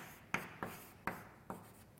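Writing an index on a board during a mathematics lecture, heard as four sharp, fairly faint strokes spaced irregularly, each with a short scraping tail, with no talk.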